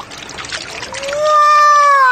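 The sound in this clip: Water runs from a sink tap, first as a soft trickling pour. A loud, steady whistling whine then rises over it and holds to the end.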